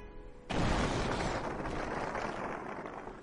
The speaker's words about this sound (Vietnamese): tiếng nổ vang kịch liệt nơi phương xa mơ hồ truyền tới.